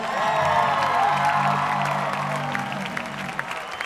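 Cheering and applause from a concert audience in Houston: a dense, continuous wash of clapping and crowd noise with scattered whoops and whistles, holding steady and loud for about four seconds.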